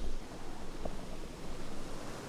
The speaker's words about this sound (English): Okay, we are on top of the spillway now. Water is rushing in.